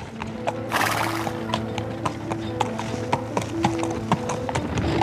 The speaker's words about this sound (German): wendete er das Pferd und fuhr rasch dem Fluss zu.